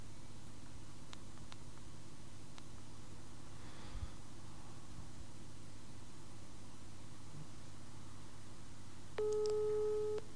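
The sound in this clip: Ringing tone of an outgoing telephone call: a single steady electronic tone sounds near the end, after a long stretch of faint hiss with a few soft clicks.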